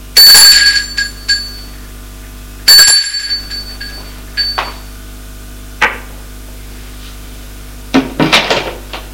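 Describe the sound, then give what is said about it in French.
A doorbell on an upper-floor landing rings twice, two bright metallic rings a couple of seconds apart, followed by several scattered thuds and clunks. “il sonne à la porte.”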